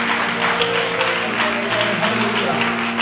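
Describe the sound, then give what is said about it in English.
A church audience claps its hands in praise during worship, with brisk, steady, dense clapping for about three seconds over a low, sustained tone. “And let's all just clap our hands and praise him and magnify him.”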